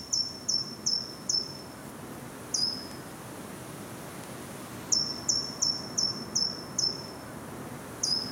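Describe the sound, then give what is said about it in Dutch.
A treecreeper sings at dusk between Wassenaar and Valkenburg: two short runs of very high, thin, quick notes separated by single isolated notes, faint over a soft, steady background hiss. “Het is geen virtuoos zanger, maar wel een handige, kromgesnavelde klimmer. Zo noemt Liz Stolp de boomkruiper die zij in de avondschemering hoort ergens tussen Wassenaar en Valkenburg.”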